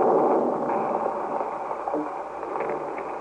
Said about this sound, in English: Well, that was some kind of a bomb wired up in there.